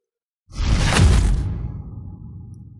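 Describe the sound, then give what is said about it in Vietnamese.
A single heavy whoosh of a giant glowing sword slashing through the air bursts in after a moment of silence, swelling quickly and then trailing off into a low, fading rumble. “Hàng Lập bấm niệm pháp quyết, hào quang cự kiếm đại thịnh hung hăng chém về hư không phía trước.”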